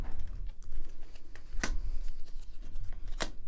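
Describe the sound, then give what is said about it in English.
Two crisp, sharp snaps of a tarot deck being split and its top cards flipped, spaced well apart over a steady low hiss, with fainter taps and rustles between them. “And then I am going to put the deck down with my left hand, split it in half, split the larger deck in half again, and then flip all the top cards.”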